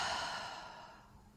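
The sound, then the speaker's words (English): A deep, slow breath is let out in a single soft, airy exhale that starts strongest and fades away gradually. It is quiet and has no talking over it. “start by taking a very deep breath in and exhale out”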